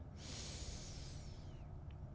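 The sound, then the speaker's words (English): A deep inhale during a guided four-count breathing exercise: one long, airy, hissing breath lasting just over a second, soft and alone. “And one last time, inhale four,”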